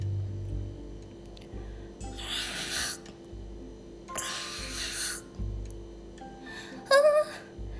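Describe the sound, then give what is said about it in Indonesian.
A bat up in a tree, producing three raspy, breathy, snore-like bursts, each about a second long, then a short squeaky chirp near the end, with quiet gaps between them. “Ternyata anak-anak tahu itu adalah suara seekor kelelawar.”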